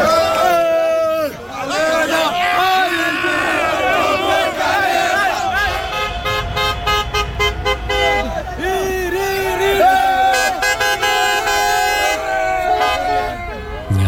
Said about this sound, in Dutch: Op de Keizer Karelplein Nijmegen werd flink getoeterd en gezwaaid met vlaggen.